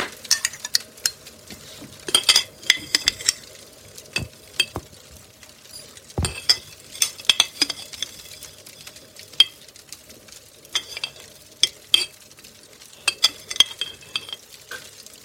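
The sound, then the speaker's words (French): Rapid whisking of instant coffee with water for whipped coffee: many quick clinking and scraping strokes in uneven bursts, with no talk. “Ok, étape 1, fouetter vigoureusement le café soluble. Ok, du coup d'abord je mets... C'était combien de cuillères déjà 5 cuillères.”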